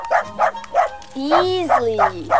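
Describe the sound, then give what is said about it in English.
A dog barks in a run of evenly spaced, sharp woofs, loud and rhythmic, with talking and a sustained whining tone beneath the later barks. “Beautiful animal, mammal, canine, dog, mutt.”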